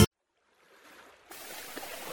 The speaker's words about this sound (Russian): Слышите? Слышите, как шумит море?